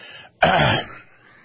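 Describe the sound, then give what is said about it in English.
A single throat clearing: one loud, rough burst that cuts in abruptly and trails off into a quieter, breathy tail. “Let me clear my throat, too.”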